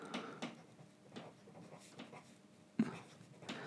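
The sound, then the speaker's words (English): Writing something down by hand, heard as a few quiet, scratchy strokes in an irregular rhythm, with one sharper tap near the end. “I'm also just writing that down as the title of the show.”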